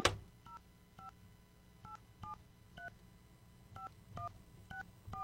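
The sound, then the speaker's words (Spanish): Telephone keypad tones as a number is dialed: a series of short two-tone beeps at uneven intervals, faint over a low background hum. “Estamos marcando. A ver si nos responde.”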